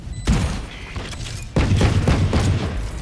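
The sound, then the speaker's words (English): A swarm grenade goes off in a video game: two bursts of heavy, rumbling booms with rattling thuds, the second arriving about a second after the first and lasting to the end. “Placing swarm grenade. Swarm grenade out.”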